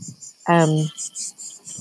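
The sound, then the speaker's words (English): Crickets chirp in a steady, high-pitched pulsing trill that runs throughout, with a short, low, tonal voice-like sound rising briefly above them near the start. “And there's lots of crickets in the background.”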